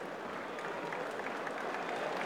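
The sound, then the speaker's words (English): A tennis crowd applauds during a match as a player walks to the far end between games in the second set, producing dense, steady, even clapping that stays moderately faint throughout. “they're getting another round of applause”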